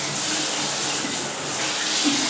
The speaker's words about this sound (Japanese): ちょっとシャワー流します。ちょっと洗いながら話します。